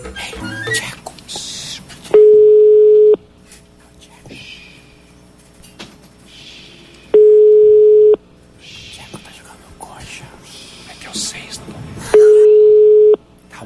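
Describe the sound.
Ringback tone on an outgoing phone call placed as a prank to a football player: three steady, mid-pitched tones, each lasting about a second and spaced roughly five seconds apart. Voices and background noise fill the gaps between them.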